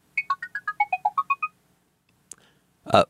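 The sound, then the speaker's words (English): Google Tone Chrome extension chirp sharing a URL: a rapid run of short electronic beeps hopping between pitches, followed after a pause by a faint click and a brief, louder noisy burst. “It's Google Tone. That's that tiny R2-D2 type sound that you heard”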